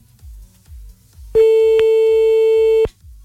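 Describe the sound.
A telephone line sounds after a call is hung up: one steady, mid-pitched tone held for about a second and a half, with soft low pulses repeating before and after it.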